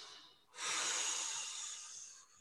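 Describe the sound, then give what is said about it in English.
One deep breath, a steady, soft, airy rush lasting nearly two seconds, quiet and alone, rising quickly at the start and easing off toward the end. “Take it a breath. Take a breath.”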